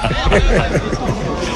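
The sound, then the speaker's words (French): A football stadium crowd at a national championship match reacts with disapproval after a foul on a player, a loud, dense mass of voices with jeering, rising and falling cries. “C'est parce que là, il y a eu une faute sur un joueur et le public désapprouve l'attitude.”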